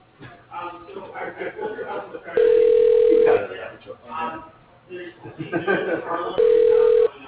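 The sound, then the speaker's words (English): Telephone line ringing as a call is transferred to a company's switchboard: two steady, loud ringback tones separated by a pause, with voices continuing underneath and between them. “Thank you for calling. We appreciate your business. I'll transfer you now.”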